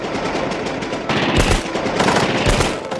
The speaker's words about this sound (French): Installez les mitrailleuses! Feu à volonté! Feu!